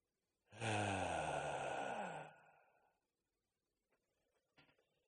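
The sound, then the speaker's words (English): A deep, loud breath is pushed out with a voiced, sighing tone. It lasts about two seconds, then thins into a fading breathy tail, followed by a few faint small clicks. “Breathe in. Breathe out. Say it along with me. Follow at home. Breathe in. Breathe out.”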